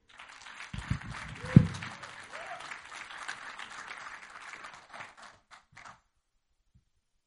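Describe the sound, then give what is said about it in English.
Audience applause welcoming a speaker at a church Bible-teaching gathering. The clapping rises quickly with a loud thump near the start, stays steady and dense for several seconds, then thins into a few scattered claps and stops. “put your hands together as we welcome Anthony Griego.”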